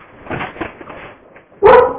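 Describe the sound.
A dog barking as it greets its owner after two weeks apart: softer, murmuring vocal sounds come first, then one loud, sharp bark near the end.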